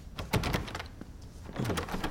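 A stuck door in an old house, leading to the kitchen, is forced open with strained creaking and scraping as its hinges break, forming a rough, noisy stretch with a few louder bursts.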